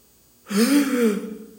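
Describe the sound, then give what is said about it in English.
A sharp, voiced gasp of shock, standing for a church audience's reaction: one loud intake that rises quickly, then trails off within about a second, alone. “Gasp from the congregation.”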